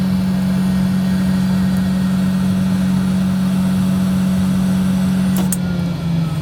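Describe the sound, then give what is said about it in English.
Ventilation fans in a space station toilet whir loudly as they crank up, a constant droning hum with rushing airflow noise that holds steady, then shifts slightly lower near the end. “So that's the fans cranking up. It's good to use the restroom as the system cranks up and while you're using it.”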